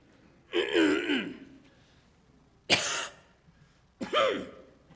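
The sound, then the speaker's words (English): A person imitates a throat tickle with three bursts of coughing and throat clearing, rough and raspy, each lasting under a second and separated by short quiet pauses. “Not so much hacking there. But you know how that is when you got that tickle?”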